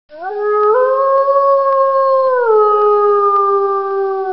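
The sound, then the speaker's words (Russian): A beast's howl, one long loud sustained cry with no other sound, that steps up in pitch early on, holds steady, then drops to a lower held tone partway through. “Внезапный вой захватил дух каждого, даже земля начала дрожать.”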